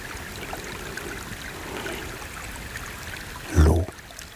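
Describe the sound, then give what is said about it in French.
Spring water trickling up through a thick snow cover makes a faint, steady babbling wash with one brief, louder burst near the end. “L'eau de source surgit telle une petite cicatrice sombre et noire au milieu du manteau immaculé.”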